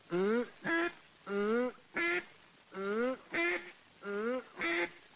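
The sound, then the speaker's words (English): A duck call imitates a duck with eight loud, nasal quacks, arranged as four evenly paced pairs of a longer note followed by a shorter one, with no talk between them. “Now, without your duck call, make this sound. Oops, oops. With your duck call, make this sound.”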